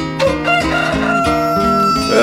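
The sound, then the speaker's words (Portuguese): A rooster crowing loudly in a drawn-out, harmonic call, bright and strained in tone, filling the short stretch almost without pause. “Rapaz, o galo tá cantando aí, ó.”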